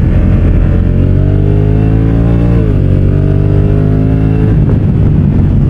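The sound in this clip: Car engine accelerating hard in sport mode, a loud, continuous mechanical roar. Its pitch climbs steadily, drops briefly at a gear change, then climbs again.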